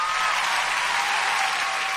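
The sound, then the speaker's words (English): Hands clapping in a dense, steady patter that lasts about two seconds at an even loudness, with no voices. “I have to clap hands for myself”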